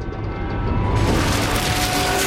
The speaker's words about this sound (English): He watches as the helicopter takes off. Missiles are fired at the bridges crossing the river and Air Force planes zoom past.